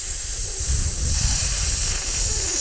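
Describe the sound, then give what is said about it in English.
A voice imitates the hiss of sizzling fajitas or a snake, producing one continuous, breathy, loud hiss that holds steady for nearly three seconds with no words. “that's the sound of fajitas and snakes.”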